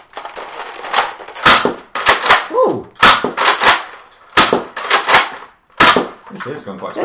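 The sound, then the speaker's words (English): Gunfire from a gun being test-fired for its power, many sharp, loud cracks in quick bursts with short pauses, while people talk between the shots. “So I'm going to fire off a couple of rounds. Yeah, do that. You can tell by the sound, eh?”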